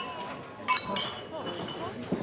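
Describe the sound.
Glasses clinking in a toast: a few bright, sharp glass chinks ring out over people talking.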